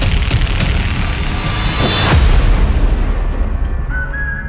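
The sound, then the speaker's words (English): Explosions in a movie trailer as old barns blow up, a loud, dense rumble of booms with a sharper blast near the middle and a high whistling tone near the end. “So many things are exploding on camera right now, and they literally don't make sense. It's just random old barns are exploding.”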